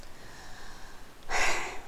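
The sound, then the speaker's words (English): A deep breath is drawn in: a single loud, airy rush lasting about half a second near the end, after quiet background. “So take a big breath.”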